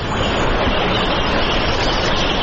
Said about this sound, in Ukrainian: Ця вода тече не річкою, а дорогою у селі Ейнсфорд на півдні Англії.